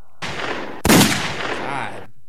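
A gunfire sound effect bursts out as a loud noisy blast with one sharp, heavy crack near its start, then a rough decaying tail lasting about two seconds.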